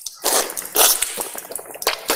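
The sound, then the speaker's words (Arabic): Water from a slightly opened tap is scooped in one palm to rinse the mouth and nose during ablution: quiet splashing, swishing and snuffling bursts come in a few irregular pulses with short pauses between them. “كما هو الملاحظ تمضمض واستنشق من كف واحدة، أعيدها مرة ثانية.”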